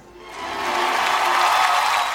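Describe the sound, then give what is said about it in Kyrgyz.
Audience applause after a fable recitation at a Kyrgyz-language event: clapping swells up over the first second, then holds at a steady, moderate level. “Кол чабуулар менен болсун.”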